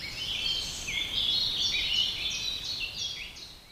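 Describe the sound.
Birds sing in the treetops of an old oak in May, in spring while feeding their young. Continuous high chirping and warbling phrases run over a steady soft background hiss.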